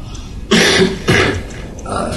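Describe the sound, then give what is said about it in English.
Two harsh, loud coughs from someone unwell, coming in quick succession, each a short rough burst, with no talk around them. “I haven't been all that well in the last week, so you'll forgive me for coughing and various things like that.”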